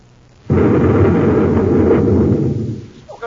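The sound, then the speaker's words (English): A space grenade explodes among rocks in a science-fiction radio drama. One sudden, loud, rumbling blast holds steady for about two seconds, then fades away. “what was that? A space grenade.”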